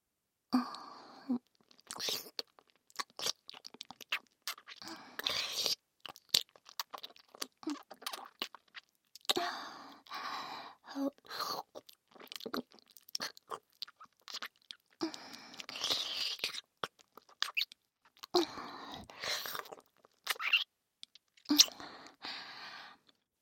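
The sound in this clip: Wet ear-licking mouth sounds in an ASMR recording: many soft, irregular smacks and slurps come in clusters separated by brief quiet gaps, faint and close.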